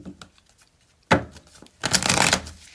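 Tarot cards being shuffled and laid out for a reading: a few faint taps, then a short papery riffle, and after a pause a longer, denser flurry of shuffling.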